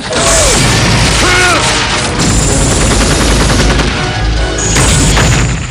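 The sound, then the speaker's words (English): Loud gunfire and missile explosions rock a tank during a battle scene in the film Rambo. Blasts and rattling bursts crowd together, with no pause in the booming din. “Rambo stays focused as gunfire and missiles rock the tank around him.”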